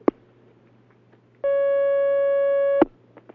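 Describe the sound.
Telephone line tone of an incoming call: a sharp click, then one steady buzzing tone lasting over a second that ends on another click, over faint background hiss.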